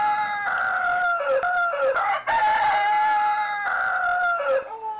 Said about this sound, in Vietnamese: Cái buồn lại càng vời vợi bởi một vài tiếng gà eo ốc xa xa gáy chiều.